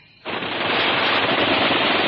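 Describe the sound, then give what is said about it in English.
Bren machine gun firing among soldiers: after a brief quiet moment, a loud, dense roar of fire sets in and continues unbroken to the end, with no voices. “I want them to come pouring out. I want them to wonder whether they've heard a machine gun or not.”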